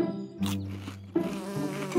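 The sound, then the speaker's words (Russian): A bee buzzes around a pot of honey, a steady, droning hum with a whining overtone that runs the whole time and changes tone twice along the way. “Ой, пчела! Испугался? А чего это она разлеталась?”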